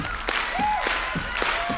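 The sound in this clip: Audience clapping hands in a steady rhythm at a country music concert, fairly faint and blended with music and a sustained sung tone.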